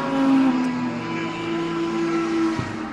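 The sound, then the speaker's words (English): Small MG Midget sports cars at a race event go by with a steady, buzzing engine drone made of stacked tones. The pitch sags slightly as they pass, and the drone stays fairly loud throughout. “Those are little MG midgets going by.”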